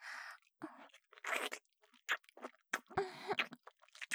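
Wet licking and sucking sounds of a mouth on fingers, in many short, uneven smacks and slurps with brief pauses between them and no talking.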